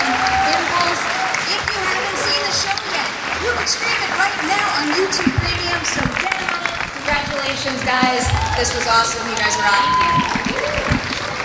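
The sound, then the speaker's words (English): Sustained audience applause for a creative team, many hands clapping steadily in a thick, continuous wash, with voices speaking over it at times and a few louder claps and bumps throughout. “please join me in giving a big round of applause to the creative team”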